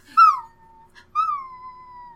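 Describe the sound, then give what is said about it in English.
Puppy whimpers made as a Foley effect, two high yelps, each beginning with a sharp cry that slides down into a thin, drawn-out whine. “Please note that we're actually torturing a puppy to get those sounds.”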